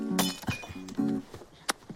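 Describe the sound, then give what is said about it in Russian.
Glasses clinking in a brotherhood toast, a few sharp, bright glassy chinks, the loudest near the start and near the end, against a quiet background. “Ну, выпьем с тобой на брудершафт, да? Чокнуться забыли только.”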